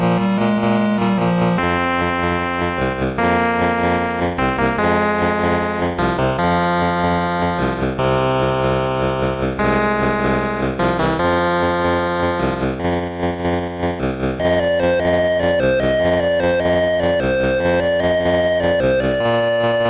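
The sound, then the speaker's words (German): Polyphonic chiptune music from the Atari VCS game BMX Air Master plays continuously and loudly. Buzzy square-wave melody and bass lines shift through quick changing notes in a steady rhythmic loop. “habe ich noch ein schönes Beispiel aus dem Spiel BMX Air Master.”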